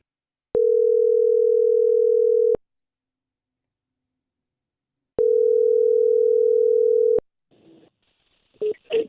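A telephone line tone sounds for an incoming call: two long steady single-pitch tones of about two seconds each, separated by silence, followed by a few brief irregular bursts.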